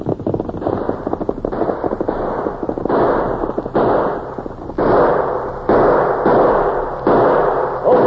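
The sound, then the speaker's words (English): Gunshots ring out in a Western shootout as a long series of heavy, booming reports at a fairly steady pace, each with a lingering tail. “The ornery polecats, they fired at me. That bullet went right through my hat.”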